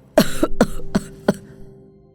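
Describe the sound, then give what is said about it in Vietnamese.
A dying old man coughs a few times in hoarse, throaty bursts, the first the strongest and the rest spaced out and fading, heard alone without talk. “Nói rồi, ông ho lên hù hụ mấy tiếng rồi tắt thở”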